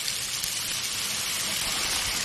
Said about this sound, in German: Also kurz abspülen.